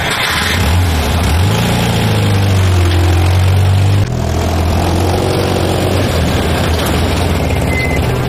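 A car engine accelerates with a loud, steady rumble. Its tone rises and holds as it revs, dips briefly about halfway through, then keeps pulling.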